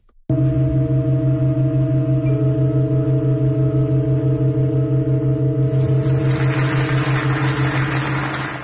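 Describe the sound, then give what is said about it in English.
A pipe organ in Halberstadt, Germany, playing a very slow, long-held piece holds a loud, steady chord of several sustained notes. A new note enters early on, and a breathy hiss swells in the upper range toward the end. “The exciting sound of the John Cage organ in Halberstadt, Germany, changing chords.”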